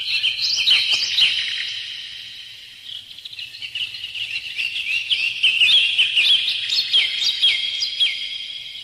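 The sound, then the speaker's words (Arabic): A nightingale (bulbul) sings a long, continuous run of high, bright chirps, warbles and quick trills that rise and fade in loudness. “البلبل يشدو إنه صوت الحياة. كيف يا بلبل تشدو في زماننا كساد؟”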